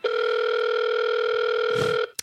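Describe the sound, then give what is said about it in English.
A telephone dial tone holds a loud, steady, unbroken hum for about two seconds before cutting off, followed by a brief click. “Okay, so let's dial.”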